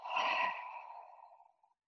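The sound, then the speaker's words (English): A single long exhale through the mouth, taken during a guided breathing exercise. It is breathy and soft, and fades out steadily over about a second and a half. “Again, big inhale through the nose. Big exhale through the mouth.”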